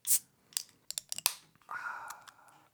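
Beers from Wayfinder brewery being opened, with several quiet clicks and taps followed by a brief fizzing hiss, all faint.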